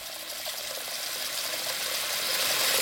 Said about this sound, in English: So we're filling up the sink in the bathroom here.